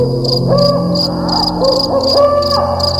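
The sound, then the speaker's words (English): Owls hooting at night in a forest, a series of low, hollow hoots repeating over a steady, pulsing chirp of insects. “There were many strange sounds in the night. The calling of the owls,”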